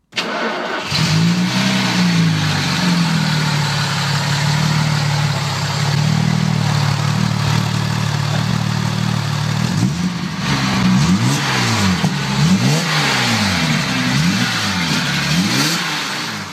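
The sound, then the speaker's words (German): A 280 SL sports car engine drones steadily at first. It then breaks into a series of quick revs, each rising and falling in pitch, loud and with no talk. “Ja, und wie ein 280 SL so klingt, das hören wir uns jetzt mal kurz an.”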